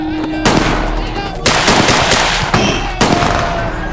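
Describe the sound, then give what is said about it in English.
Gunshots from a Schofield revolver fired round after round: several sharp, loud cracks, each followed by a rush of broad noise and ringing, over a steady low hum. “Schofield he gave me, firing round after round in anger”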